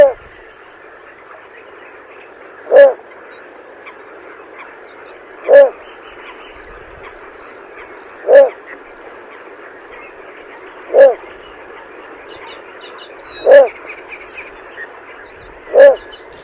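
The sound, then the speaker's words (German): A little bittern calls at night at a swampy lake, giving six short, deep, frog-like barking notes spaced evenly about every two and a half seconds over a steady hissing background chorus. “Fast schon froschähnlich, ne? Aber diese Reihe und dieses Ruh, das ist typisch für die Zwergdommel.”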